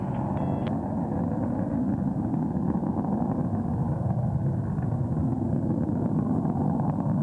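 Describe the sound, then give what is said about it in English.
Rocket launch with the first stage burning three solid rocket motors, heard as a continuous deep, rumbling roar with a broad noisy texture. It holds steady and loud for the whole stretch without a break. “Now passing Max-Q. Vehicle first stage still looking good. All three solid motors are starting to taper off. And all three solids have burned out.”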